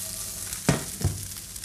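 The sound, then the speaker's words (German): Steady sizzle of tofu nuggets frying in oil in a pan, broken by two sharp knocks as the pan is tossed, the second softer than the first. “Wie gesagt, mit dem Rezept spare ich nicht gerne mit dem Öl. Ich schwenke, ich schwenke.”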